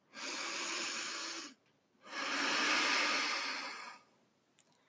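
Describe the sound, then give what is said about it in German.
A slow, deep breath in and out, with a long airy inhale followed after a short pause by a longer, steady exhale, soft and hissy with no talk. “Und atme einmal tief ein und aus.”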